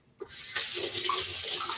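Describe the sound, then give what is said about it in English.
Water running from a tap as hands are rinsed under it, a steady hissing splash that starts abruptly and continues evenly without voices. “I need to actually rinse my hands really quick.”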